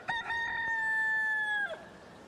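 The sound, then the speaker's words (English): A rooster crows once, a loud, long, drawn-out call that holds a steady pitch for over a second before breaking off, with a few short clucky notes at the start. No other sounds are heard. “We have audio of the rooster, sir.”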